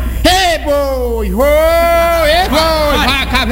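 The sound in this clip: A voice imitates an ox lowing: a long, wavering, moo-like call that dips and swells in pitch, loud and sustained over a few seconds, with a second shorter call near the end.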